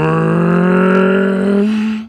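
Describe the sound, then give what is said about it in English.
A single synthetic horn note from a film score sustains as one loud, brassy, harmonically rich tone for about two seconds, holding steady without other instruments before fading out quickly. “it's literally not even really music. It's just like one synthetic horn sound, and it just sends chills through my body.”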